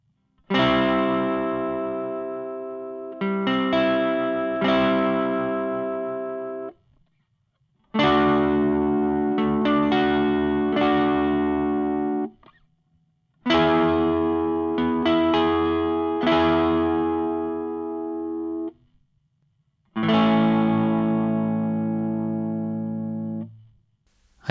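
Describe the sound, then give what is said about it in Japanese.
An acoustic guitar plays four chords, C, D, E and A, in a form with an added second-string note fretted by the middle finger; each chord rings full and decays slowly, some restruck once before the next. “中指で2弦のアレンジ音を追加します。ちょうどローコードの A を押さえた時と同じようなフォームですかね。では、C、D、E、A と弾いてみます。”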